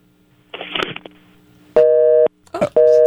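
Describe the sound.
A telephone busy tone after a caller's line drops: two loud, steady electronic beeps separated by a short gap, coming right after a brief burst of garbled voice.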